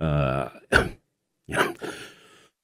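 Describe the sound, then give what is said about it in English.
Throat clearing and coughing from someone with a cold: a voiced rasping clear, then two short harsh coughs separated by a pause. “I'm still working my way through a cold here, and so if I sound like I'm hacking something up once in a while, it's that's why.”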